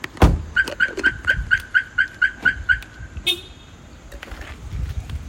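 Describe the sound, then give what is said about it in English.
A Volkswagen's car alarm has been triggered and sounds a rapid, even series of about ten high, piercing chirps, then one brief blip before it falls quiet. “Is that your car, though? Nope. Oh. We triggered another car. I triggered it. It's triggered. Look at this little Volkswagen.”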